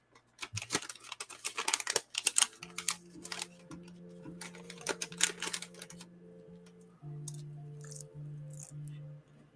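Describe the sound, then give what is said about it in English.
Crisp crinkling and rustling of a Dunkin' Donuts paper bag being handled, made up close for ASMR: many irregular crackles, busier at first and sparser later, over a low steady hum. “So I've opened my Dunkin' Donuts bag here. This is a real treat. Let's give them a little AMSR.”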